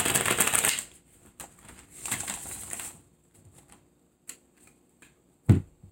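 Tarot cards being shuffled: a dense papery riffling burst, then a quieter stretch and a second rustling burst, followed by scattered light taps and one sharper card slap near the end, with no talking.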